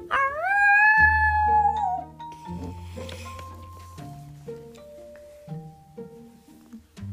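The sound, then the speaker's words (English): A wolf pack howls: a long, rising howl opens, followed by further sustained, wavering howls at shifting pitches that overlap and fade. “The rest of the pack gave an interesting howl, probably to say farewell.”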